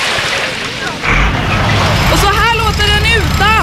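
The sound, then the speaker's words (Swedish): Beach ambience with surf washing in a loud, continuous rush, and high wavering calls rising over the waves in the second half. “Så här låter stranden med grön politik.”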